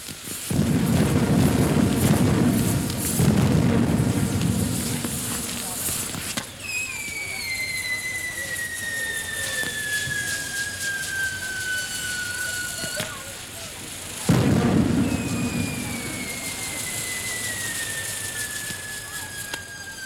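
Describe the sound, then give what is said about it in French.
Fireworks explode in the sky above a castle park, with dense crackling bursts and two long, high whistles that slowly fall in pitch. A fresh burst of crackle comes between the whistles. “1000 bougies éclairent le parc et des feux d'artifice explosent dans le ciel.”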